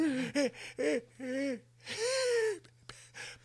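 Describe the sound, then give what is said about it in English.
A voice imitates an old man's wheezy breathing with a series of strained, voiced gasps and whining wheezes, several short bursts and then one longer drawn-out rasp. “I was trying to do that like old man breathing that you hear”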